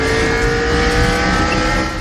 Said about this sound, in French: Extrait du film animé Cars, vous savez, cette voiture de course rouge du nom de Flash McQueen